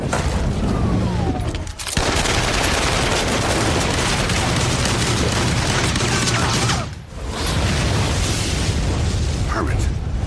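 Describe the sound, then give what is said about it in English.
Guns fire in a loud, near-continuous barrage of dense gunfire and booming blasts, broken by two brief lulls. “Hey, got a permit for those guns? I've got your permit right here.”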